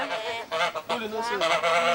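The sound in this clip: Geese honk in a steady run of harsh, nasal calls that overlap almost without a break, loud and clear for two seconds.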